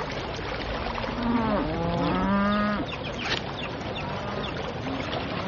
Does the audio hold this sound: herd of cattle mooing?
yes